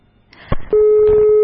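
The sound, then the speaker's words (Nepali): A steady telephone line tone follows a dropped caller's phone connection. A few clicks and a thud come first, then an unbroken, fairly loud tone runs to the end. “एकजना साथीको phone आएको थियो तर technical इश्यूजको कारणले गर्दाखेरि phone चाहिँ काटिएको छ”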